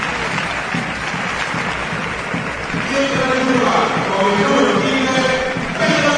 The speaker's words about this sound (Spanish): Los aplausos.